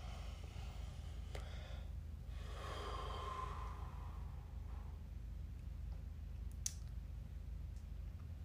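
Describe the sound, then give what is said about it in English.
A deep breath, part of a slow breathing exercise: one long, soft, airy inhale and exhale that rises out of a steady low hum and fades back into it. “And let's take another, and as we take this breath, make it the deepest breath of our day.”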